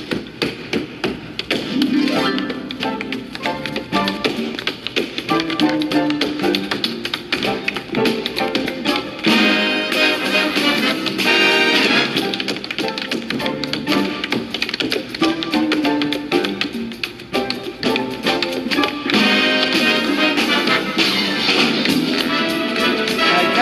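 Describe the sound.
A dancer tap dancing to music in a performance video: rapid, crisp taps and heel thuds run through a dense, steady musical backing, loud and continuous throughout.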